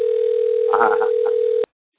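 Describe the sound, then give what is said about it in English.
A telephone tone sounds while a call is being placed: one steady, unbroken pitch at a loud, even level. A voice is briefly heard over it before the tone cuts off abruptly, leaving silence. “See if I get my bride on the phone.”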